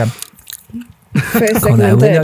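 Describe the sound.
Someone bites into and chews a Cornetto ice cream cone, giving soft, wet, crunchy chewing sounds for about a second. Then loud talk from people takes over.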